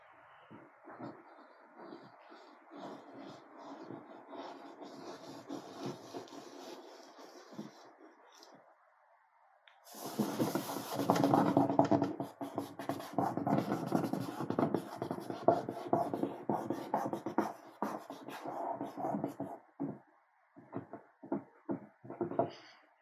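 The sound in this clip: Rubbing and scratching on paper during touch drawing, a dense, steady friction that stays soft for about ten seconds, breaks briefly, then grows louder and busier with rapid strokes before trailing into a few separate rubs.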